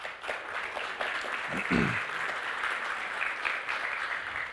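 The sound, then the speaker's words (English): Audience applause as a couple is invited up on stage for an interview at a young adults gathering. The clapping is steady and sustained throughout. “give them a hand and welcome them up”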